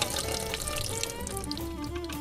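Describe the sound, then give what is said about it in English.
Excess water poured off freshly made homemade butter, a continuous splashing, trickling stream lasting about two seconds, steady and moderately loud, with no talk. “This is forcing out more and more of that extra water, so I'm gonna pour this off.”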